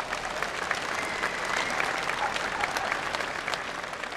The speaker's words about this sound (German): Tausende Regensburger verfolgen diese spektakuläre Aktion, geizen nicht mit Bravo-Rufen und Applaus.